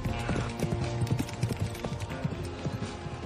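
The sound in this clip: Galloping hooves of four horses ridden hard under a cloudy sky in cold, cutting wind: a quick, uneven stream of thudding hoofbeats at moderate loudness, with no talking.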